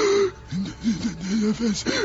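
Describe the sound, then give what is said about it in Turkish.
A man gasping and choking for breath after suddenly falling ill, with short, strained voiced gasps that rise and fall in pitch, coming in several uneven bursts. “Nefes alamıyorum. Doktor, boğuluyorum.”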